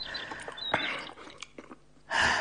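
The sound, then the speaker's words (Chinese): Someone eats hot maogen congee, making soft wet chewing and mouth sounds with a few small clicks and smacks. A louder breathy burst comes at the end. “那早上我给你买的毛根粥还冒着热气呢。哦， 又闻到家乡的味道了。那我不客气了。哎， 来来来，咱们边吃边说。”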